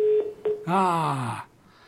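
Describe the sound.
Telephone tones sound as a phone call is placed: a steady, low electronic tone broken by two short gaps, then a louder, richer tone that drops slightly in pitch before ending.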